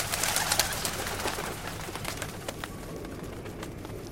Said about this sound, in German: Gut, dass es immer noch Tauben gibt, die nicht vor den Bomben und den Granaten geflohen sind. Die sind geblieben.